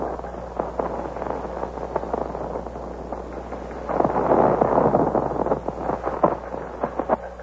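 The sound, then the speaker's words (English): Musket gunfire exchanged between Colonial Minutemen and British regulars marching on Concord. Scattered sharp reports crackle over a rumbling wash, swelling into a denser volley midway before more separate shots follow, all with a thin, narrow tone. “There's been an exchange of shots, as you've heard, between the Colonial Minutemen and His Majesty's regulars who are marching on Concord.”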